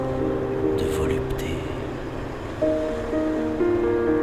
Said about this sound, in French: Des entrailles de la mer monte une vague. Elle trouble l'harmonie de l'instant, s'approche en ondulant,